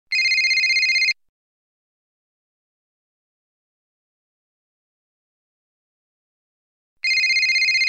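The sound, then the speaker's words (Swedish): A telephone ringtone plays two bright, high electronic bursts of about a second each, separated by a long silence, with nothing else heard. “Nu ringer min mamma.”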